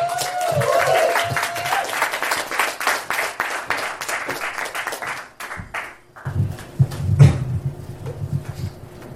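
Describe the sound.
Audience applause for the next presenter at a live event in Knoxville: dense clapping for about five seconds, then thinning into quieter scattered noise.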